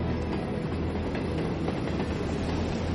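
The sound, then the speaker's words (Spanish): A train passes by the tracks with a loud, steady rumble and broad roar that holds evenly through the whole stretch, with no voices. “Pasa un tren.”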